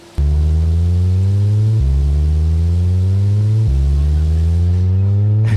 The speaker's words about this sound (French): Actuellement, un véhicule est en train de nettoyer la chaussée.